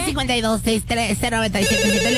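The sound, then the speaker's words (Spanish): An incoming call rings through as a loud electronic telephone ringtone, its bright melodic phrases repeating in short, evenly spaced bursts throughout. “Y también tenemos una llamada, hola.”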